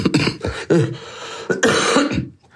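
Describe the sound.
A series of harsh, throaty coughs from a person with a cold, coming in separate bursts of varying length and fairly loud, with short pauses between them before the sound stops.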